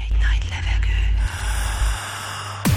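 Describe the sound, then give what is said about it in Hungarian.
A deep breath is drawn in, a long, airy inhalation that stays fairly loud and steady for about two and a half seconds. “Végy egy nagy levegőt.”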